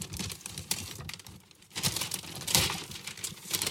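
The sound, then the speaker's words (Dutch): Wrapping paper crinkles as a large gift is unwrapped, in quiet, uneven bursts of crackling and rustling with a short lull in between, and no voices. “Dit is een heel groot cadeau, dames en heren. Oh, master. Kan ik hem zo uitpakken?”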